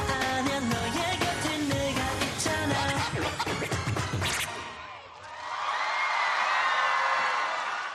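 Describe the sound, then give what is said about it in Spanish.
A Korean audience cheers and screams loudly for a Spanish K-pop dance group at a world K-pop festival in Changwon, South Korea. The sustained crowd roar swells in after loud music cuts off. “Pues así es como recibió el público coreano al grupo español Red Flag Dance en el Festival Mundial de K-Pop de Chingwon en Corea del Sur el año pasado.”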